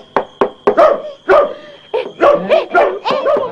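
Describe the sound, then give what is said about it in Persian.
A dog barks: a quick run of sharp, high yips, then longer whining, whimpering barks, loud and alone with no talk. “هاپو کومار هاپ هاپ کنن و بودو بودو میره در رو باز میکنه.”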